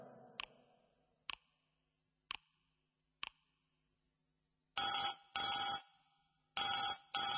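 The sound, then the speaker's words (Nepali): A telephone rings after four sharp, evenly spaced clicks, then sounds in loud, bright bursts grouped in pairs, with the last pair cut short at the end. “तेरा पैको phone आइरहेछ।”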